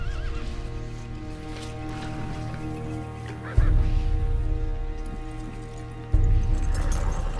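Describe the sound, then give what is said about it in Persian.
A ridden horse gallops at speed, its hooves beating a steady, loud clip-clop punctuated by whinnying, over a sustained tonal background. “دافنه سوار بر اسب با سرعت به سمت محل دوئل می رود.”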